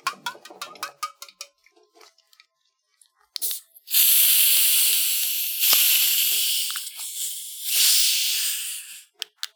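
After a few faint clicks and taps, an orange soda can is cracked open with a sharp snap, followed by a long, loud fizzing hiss that swells and eases in waves for several seconds.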